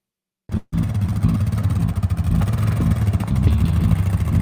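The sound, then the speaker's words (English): A vehicle engine drives onto a frozen lake for ice fishing: a steady, loud low rumble runs continuously for about four seconds after a short opening burst. “So it's the scariest part when you drive onto the actual lake.”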